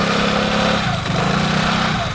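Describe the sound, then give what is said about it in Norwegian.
Small scooters whizzing through lively street traffic, heard as a loud, continuous buzzing engine drone with a slight wavering pitch and no quiet gaps. “Og trafikken livlig, og små skutere suser forbi fra alle kanter”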